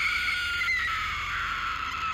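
A girl screams piercingly in one high, steady shriek that holds at the same strong level through the whole clip, with no other sound.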